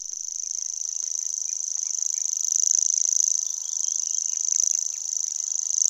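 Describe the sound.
Grasshopper warbler song: a high, dry, insect-like reel that runs unbroken through the whole clip at an even pitch, its loudness swelling and easing gently without pause.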